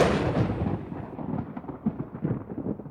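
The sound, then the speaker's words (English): Deep, rolling artillery fire and explosion booms rumble continuously with surging, uneven loudness. No voices are heard. “Suddenly, the sky flashed with artillery fire. Washington's good spirits evaporated. The great general sprang into action, commanding his troops to take the shores of New Jersey”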